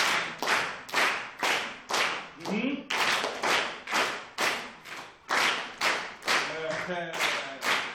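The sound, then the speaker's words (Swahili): A group claps in unison in a Swahili-language lesson, with many sharp, evenly spaced claps in a steady rhythm and brief voices calling out between them. “Safi sana. Pige makofi.”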